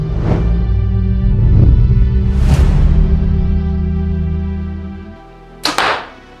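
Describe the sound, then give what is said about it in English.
A PSE 2019 compound bow is shot, ending in one sharp release snap with a quick thud near the end, over a steady humming tonal background. “make sure you guys stay tuned for a couple shots of these bows”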